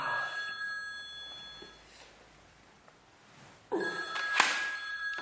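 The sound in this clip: A telephone lying on the floor rings with a bright electronic trill, heard in two bursts, a short one at the start and a louder one near the end, over faint background hiss.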